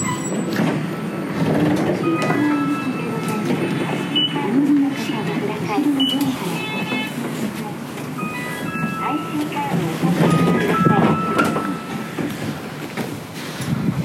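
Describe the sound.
Passenger train carrying riders into the main city: a steady rumbling ride with thin metallic whines and faint clicks riding over the din, while people talk throughout.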